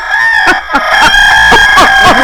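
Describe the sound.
A rooster crows loudly, its harsh, strained call breaking into a run of short rising-and-falling harmonic bursts that fill the brief moment without any talk.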